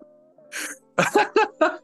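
A man coughing after breathing in the wrong way: a rough, gasping inhale, then four harsh, quick coughs in a tight cluster, loud against a quiet background.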